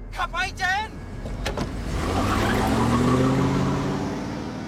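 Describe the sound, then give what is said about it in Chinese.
A car drives away in a scene from a Thai horror film. A short voice comes first, then a smooth engine hum swells and holds loudly before easing slightly. “男主前后张望一番，似乎没人看见，赶紧催促手足无措的女友开车逃离了现场。”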